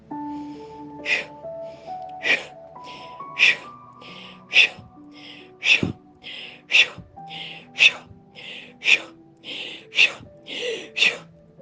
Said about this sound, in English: Let's do some breath work and tap into that power.